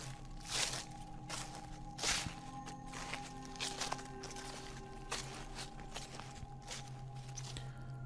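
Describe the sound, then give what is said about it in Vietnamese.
Soft footsteps rustle and crunch on rotten twigs and leaves, a few faint scattered steps over a low steady hum, with no voices. “ở bên ngoài có tiếng bước chân dẫm lên cành lá mục, loạt xoạt vang lên”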